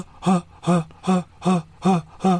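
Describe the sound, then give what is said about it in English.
A voice imitates a breathing-like synthesizer sample, repeating six short, evenly spaced breathy 'ha' sounds at a steady, quick pulse. “it's got like a synthesizer, like a sample of a almost breathing. It goes,”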